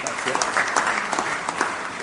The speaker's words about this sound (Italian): Accogliamolo un grande applauso